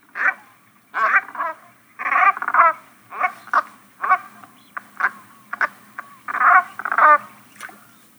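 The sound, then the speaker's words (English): Brant goose giving its quiet, nasal chuckling call: a series of short, reedy calls, some in quick doubled or tripled bursts, separated by brief pauses over a faint background. “It is the quiet nasal chuckle of a brant. And if you're lucky, you will still see some of these lovely dusky, stocky geese foraging in the tidal flats before they head north for the breeding grounds.”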